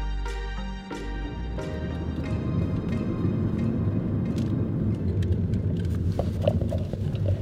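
Car rumbling through the Palou Gate, the back gate into the old Hunters Point Shipyard in San Francisco: a continuous low engine and road rumble with a few faint clicks and clatters on top.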